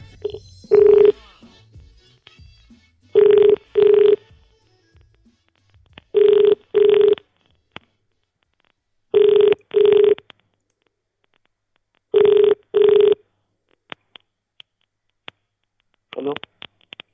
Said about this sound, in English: Guessing it's an India number. I think this is definitely Indian. Oh, weird ringing.